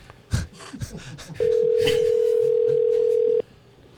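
Ringback tone of an unanswered telephone call: one steady, loud, mid-pitched tone lasting about two seconds, after a short stretch of quieter background sound.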